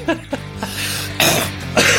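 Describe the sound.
Coughing from something caught in the throat: a few short, rough coughs, then longer, harsher strained bursts, fairly loud and with no talk.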